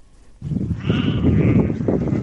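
Sheep bleat as a herder drives a flock on a pasture in Tüp district. A low rumble sets in, then a long wavering bleat is followed by a shorter one, both fairly loud.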